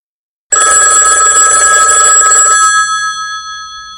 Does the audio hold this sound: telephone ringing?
yes